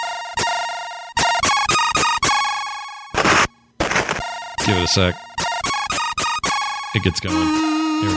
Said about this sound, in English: Now, if you don't know what this is, it's a little game called International Karate.